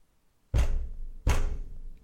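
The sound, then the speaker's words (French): Two heavy knocks strike a door that someone has been banging on for hours. They are loud, dull thuds about three quarters of a second apart, each with a short decaying tail, and no voices are heard. “il m'a suivi et il frappe contre la porte depuis plus de 10 heures. Sans arrêt, quasiment.”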